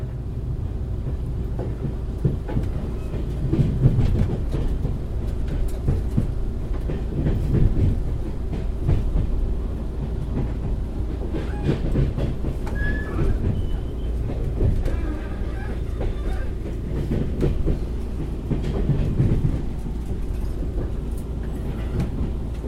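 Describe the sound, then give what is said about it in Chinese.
Train wheels clack on rails over a steady low rumble, with repeated rhythmic knocks running throughout and no voices. “没有这种叩叩叩叩这种跟铁轨相互碰撞然后产生出来的回忆”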